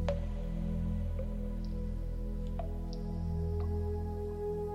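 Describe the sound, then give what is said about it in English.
Water drips fall onto a still pool. A few faint, sharp plinks are scattered over a steady low droning hum. “And in a moment, a drop of water will fall upon it, distorting the surface.”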